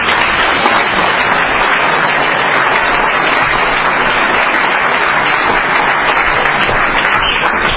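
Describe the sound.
An audience at a sobriety meeting in Wall, New Jersey claps to welcome the evening's speaker. The applause is dense, even and loud, and continues without a break for the whole stretch, with no voices over it.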